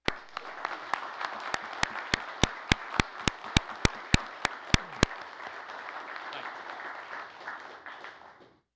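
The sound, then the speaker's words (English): Audience applause rises to honour a donor, a steady wash of clapping that lasts several seconds and tapers off at the end, with a train of sharp, evenly spaced clicks running through the first half. “I'd ask that all his supporters join in giving you a big hand.”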